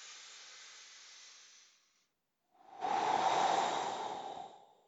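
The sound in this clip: A person takes a deep breath: a soft, airy inhale hisses for a couple of seconds, a short silence follows, then a louder, fuller exhale rushes out and slowly fades.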